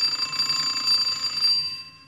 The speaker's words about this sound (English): I must have rung that bell till my finger wore out.